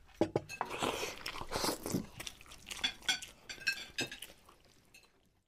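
Slurping and gulping as someone drinks from a bowl topped with a thin layer of fine sandy dust. Many short wet bursts come with light crunches and faint clinks, then fade out toward the end.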